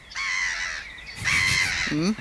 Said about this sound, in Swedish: där var måsan, ja, precis.